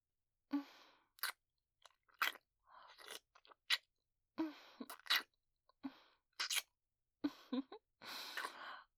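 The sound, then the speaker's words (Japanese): Light kissing with soft, wet lip smacks, many short separate bursts in an irregular rhythm, some crisp and some breathy, with no talking. “キスしたいから、お顔、こっちに向けて。 まずは軽いキスから。”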